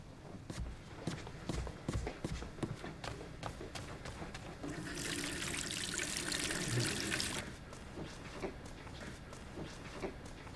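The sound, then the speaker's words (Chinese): Water runs from a tap as someone washes their hands before a meal: a steady rushing hiss lasts about two and a half seconds among scattered light knocks and clatter. “你赶紧去洗手，洗完手吃饭了。”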